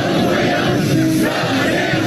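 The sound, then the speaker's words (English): Hundreds of Chinese men and women chanting in unison to greet President Trump as he steps off Air Force One; a dense, loud, continuous roar of massed voices. “President Trump was greeted by hundreds of Chinese men and women chanting in unison, waving American flags as he got off of Air Force”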